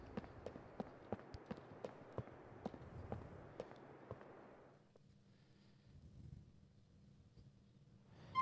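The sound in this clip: Footsteps of a character walking out of a station in the video game GTA IV: a quick, steady run of soft thuds for about four seconds, then a low, steady hum.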